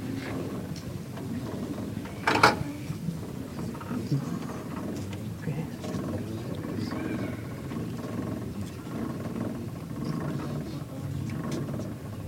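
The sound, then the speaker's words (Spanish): A wooden ratchet rattle, or carraca, sounds during a Holy Week procession as a crucifix image is raised. It gives a continuous dry grinding clatter that holds steady throughout, with one sharper burst early on. “Poco a poco está subiendo, está desenterrándose, así se escucha.”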